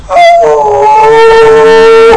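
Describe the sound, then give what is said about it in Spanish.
A human voice imitates a wolf howl: one loud, sustained tonal cry that opens on a brief higher note, then drops and holds a long, steady pitch before cutting off. “¿Qué le pasó a ese aullido?”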